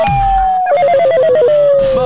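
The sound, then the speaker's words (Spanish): A telephone rings loudly when a dropped call is dialled back: a steady electronic tone, then a rapid warbling two-note trill, then the steady tone again. “Deja, vamos a llamar ya otra vez porque se le cortó la llamada, no sé qué pasó.”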